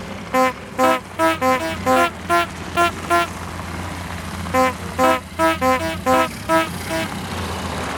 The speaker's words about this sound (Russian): а ты обратил внимание на фары автомобиля, который только что проехал мимо?